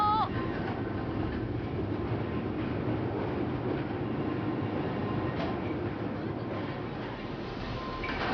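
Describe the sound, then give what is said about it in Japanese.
A trolley train pulling away on its rails, a steady, dense rumble with faint rolling clatter that holds throughout and dips slightly near the end. “今小塩トロッコ列車発車しました。いい音、”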